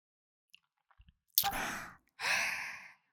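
Deep, slow breathing: two long, airy breaths in quick succession, preceded by a few faint clicks in otherwise quiet surroundings.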